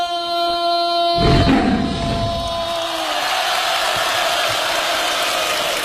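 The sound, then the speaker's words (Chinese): A crowd cheers on cue at a live comedy performance. A loud burst of shouting breaks in abruptly after a held tonal sound, then settles into a rough, continuous roar of crowd noise. “一会儿我起个头，大伙儿一欢呼，姜昆就算掉老虎洞里了啊！”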